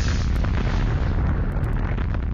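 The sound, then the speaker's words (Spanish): A massive explosion tears through a nitroglycerin factory in 1864, heard as a loud, unbroken roaring rumble that stays dense and steady for the whole stretch without easing off. “Una imprudencia provocó una explosión que hizo saltar todas las instalaciones”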